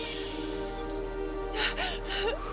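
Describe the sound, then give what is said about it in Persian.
Three short, airy breaths from a frightened woman told to take a deep breath, coming in quick succession over a steady low hum, with faint whimpering tones between them. “یه نفس عمیق بکش.”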